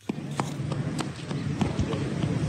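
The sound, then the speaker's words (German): A small boy's quick running footsteps patter across a square lined with closed shops in Muzaffarabad, Kashmir: a fast, light, irregular run of taps with voices faintly underneath. “Ein kleiner Junge läuft über einen Platz, der von geschlossenen Geschäften gesäumt wird.”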